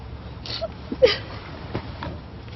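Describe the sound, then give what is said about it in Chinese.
A person crying and whimpering, with a few soft, brief broken sobs and whimpers that stay faint and scattered through the moment. “现在已经够烦的了，别再哭了好吗？”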